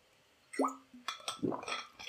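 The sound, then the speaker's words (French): Someone taking a sip of water, with a light clink and small wet slurping sounds in a few brief bursts, faint and without talk. “Attends, je vais juste prendre, euh, boire un coup d'eau.”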